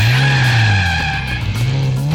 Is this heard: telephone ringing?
no